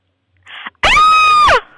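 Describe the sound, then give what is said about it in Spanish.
A woman screams over the telephone: one loud, sustained, high-pitched scream lasting under a second, rising at the onset and falling away at the end, just after a brief burst of noise. “me hace falta que usted me pegue un grito por el teléfono para que la máquina la registre, por favor.”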